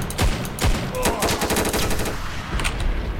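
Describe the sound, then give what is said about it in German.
Video game gunfire: rapid automatic bursts with a few sharper, louder shots near the start, then continuous rattling fire to the end. “Gut, schießen. Probieren wir ihn anzuschießen.”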